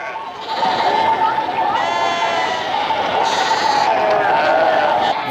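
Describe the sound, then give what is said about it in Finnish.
A large flock of sheep bleats nonstop, with many overlapping loud, wavering calls forming a dense, continuous chorus throughout. “Näin paljon lampaita minä en ole eläissäni nähnyt.”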